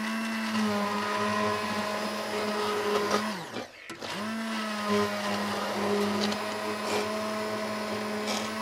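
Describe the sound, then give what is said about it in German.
A blender purees strawberries with sugar in a loud, steady whining motor drone that cuts out briefly midway and starts again, with no talk over it. “Ja, also Erdbeeren werden püriert mit Zucker. Ich lasse immer ein bisschen stehen, dass das so ein bisschen Saft zieht. Dann einmal pürieren, dass man glatt das Erdbeerpüree hat.”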